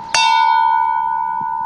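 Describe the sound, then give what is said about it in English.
A single bell stroke rings out and then hums on in a long, steady tone. It is rung once for a state at a civic ceremony where the thirteen original colonies are read aloud. “officially ringing the bell for each state”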